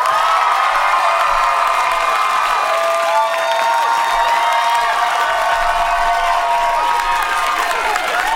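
A large New York City crowd cheers, shrieks and applauds as a singer arrives, with loud, continuous high-pitched screams over steady clapping throughout.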